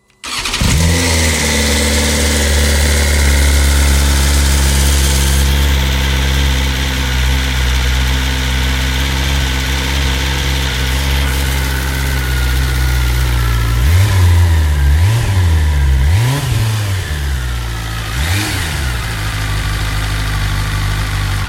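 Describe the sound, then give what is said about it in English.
A BMW S1000RR four-cylinder motorcycle engine starts abruptly and settles into a loud, steady idle, then gives a few quick throttle blips that rise and fall in pitch before returning to idle. “Four cylinders, incredible power and precision, and a bike to own the racetrack on. That'll be the awe-inspiring S1000RR then.”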